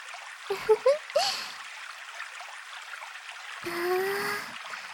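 Water pours and washes over a man's back as it is rinsed, a soft, steady splashing hiss throughout, with brief faint vocal sounds near the start and a slightly fuller surge of water toward the end.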